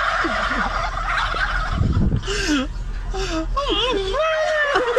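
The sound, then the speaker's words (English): Turkeys gobbling in answer to a man who imitates their gobble: rapid, warbling gobbles repeat throughout, fairly loud, with a louder rough burst near the middle. “It must be, it's audio, it's in our system, and it's labeled Turkey's Gobble.”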